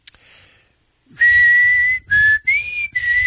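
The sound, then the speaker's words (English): A person whistles a song tune, starting after a brief click and pause with a few clear, fairly loud sustained notes. The notes are separated by short gaps, and one phrase rises slightly in pitch. “Well, unfortunately, you get the bad whistler.”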